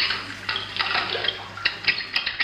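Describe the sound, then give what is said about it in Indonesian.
Water runs as a child washes hands after being told not to play with it. Loud, irregular splashy bursts break over a steady flow. “cepat cuci tangannya. Jangan main air.”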